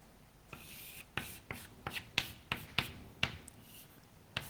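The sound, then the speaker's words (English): Handwriting by pen or chalk: many short, sharp strokes and taps in an irregular rhythm, each a crisp scratching click of moderate loudness, with no talk. “I write that, well, let me write this in words after this.”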